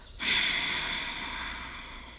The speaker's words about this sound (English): Breathe in more air. Hold. 3, 2, 1. Exhale.